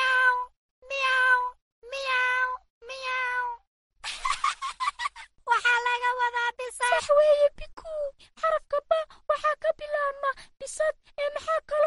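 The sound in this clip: A cat meows with four drawn-out, tonal meows at an even pace, followed by a busier run of many shorter, rapid calls.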